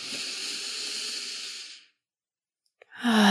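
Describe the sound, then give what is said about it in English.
Deep breath during a guided breathing exercise: a long, airy inhale for nearly two seconds, a short silent pause, then a strong breathy exhale begins. “I want us all to take a really nice deep breath together. Here we go. Inhale.”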